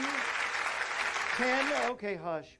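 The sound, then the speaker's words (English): Concert crowd cheering and clapping for a music duo at a club show, a broad wash of noise with a voice over it, which breaks off to leave a single voice talking alone at the end. “the crowd is going wild out there”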